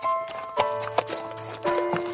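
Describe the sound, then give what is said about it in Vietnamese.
Horse hooves clip-clopping as the horse pulls a cart through a snowy winter setting. A few soft, separate hoof knocks sound over a steady tonal background. “Con ngựa lợp cợp kéo xe đi.”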